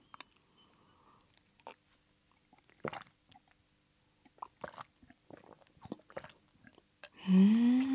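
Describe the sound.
Faint gulping and swallowing of a milk tea drink taken straight from the cup without a straw, a few soft scattered clicks and wet sounds, then a brief louder voiced sound at the end.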